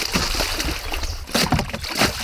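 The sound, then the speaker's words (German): Splashing and sloshing water as a homemade raft, built by a group of people, is pushed into a river. Loud bursts of splashing come and go over a continuous wash of water. “wie lange habt ihr mit dem Floßbauen gebraucht? Wir haben jetzt schon 2 Stunden dran gearbeitet und jetzt sind wir fertig und bringen es ins Wasser.”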